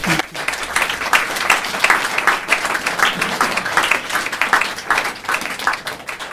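An audience applauds as poet Mario Petrucci is welcomed on stage at Stanza. The clapping is dense and steady and continues at an even level throughout.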